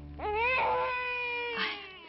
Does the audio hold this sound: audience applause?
no